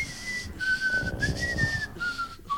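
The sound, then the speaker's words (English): A person whistling: one thin, clear sustained tone that wavers gently in pitch and dips lower near the end, moderately loud over soft background noise, with no talk. “I can whistle”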